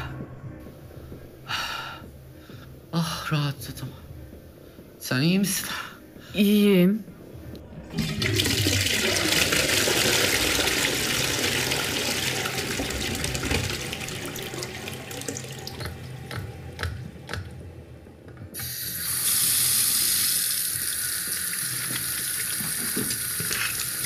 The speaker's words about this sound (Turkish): Salak gibi yüzümü yıkadım.